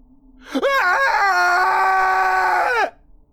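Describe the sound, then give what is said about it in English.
A single blood-curdling scream from a frightened voice rings out loud and alone. It wavers in pitch at the start, holds high and steady for about two seconds, then drops off sharply. “Ryan's words were cut short by a blood-curdling scream.”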